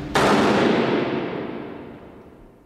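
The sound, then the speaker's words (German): A firing squad fires a single rifle volley at an execution in a fortress moat. It lands as one sharp, loud crack that then fades slowly through a long, rumbling decay over the next couple of seconds. “in den Festungsgraben, wo der Exekutionspeloton sie erwartete. Dann ging alles sehr schnell. Leg an! Feuer!”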